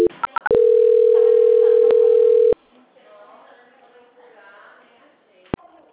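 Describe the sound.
A steady telephone tone plays while a call is being transferred. It comes after a few short beeps at the start, holds for about two seconds, then cuts off, leaving only faint low background noise.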